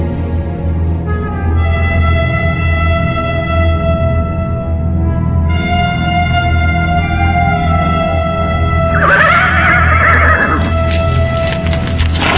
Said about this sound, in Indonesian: Empu Janardana buru-buru menarik tali kekang kudanya